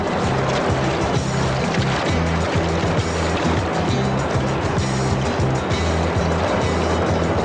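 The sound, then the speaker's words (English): Oars pull a rowboat through the water in a hurried escape, a regular rhythm of low strokes repeating many times over a constant rushing wash of water. “Let's get out of here. Yeah, come on, row!”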